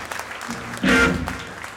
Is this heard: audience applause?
yes